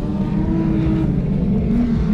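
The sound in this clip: A race car accelerating at the start-finish line of a circuit, pulling away again after a knock. Its engine makes a loud, steady droning roar that rises slightly in pitch near the end.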